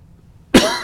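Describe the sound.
A single cough from a tickle in the throat bursts out sharply after near silence, then trails off quickly.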